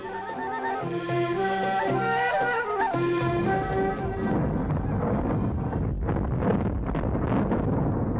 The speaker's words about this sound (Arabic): اللي سمعناه دلوقتي ده صوت تفجير الديناميت داخل النفق.